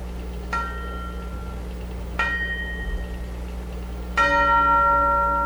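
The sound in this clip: Three partials of a tuned church bell played from tape, struck one after another as clear ringing tones that slowly decay. The last is louder and fuller, over a steady low hum.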